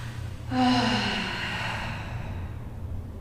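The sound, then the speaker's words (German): A deep breath drawn during a breathing exercise: one long breath begins suddenly, carries a faint tonal edge, and slowly fades over about three seconds. “Nimm mal einen tiefen Atemzug in deinen Schoß.”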